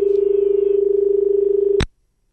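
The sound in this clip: Telephone line tone as a call comes in: a steady, low, rapidly pulsing hum that runs on, then stops with one sharp click into silence.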